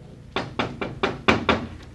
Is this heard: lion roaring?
no